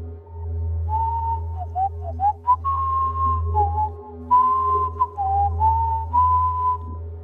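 Someone whistles a wavering folk tune in a basement, the clear melody sliding between notes above a steady low hum that runs under the whole recording.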